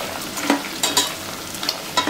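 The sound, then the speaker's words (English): Bacon sizzles in a pan as it crisps in its own fat, a steady frying hiss broken by scattered small pops and crackles, with no voices. “And look, you can see your bacon starting to get really crispy now.”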